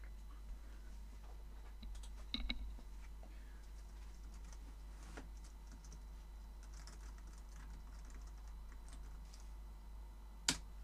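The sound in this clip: Keyboard typing: faint, scattered keystrokes in quiet surroundings, a few irregular clicks with long gaps between them rather than a steady run.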